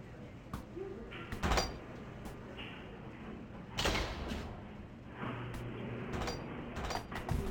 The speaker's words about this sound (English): Oh, can we open one of the morgue doors? We can.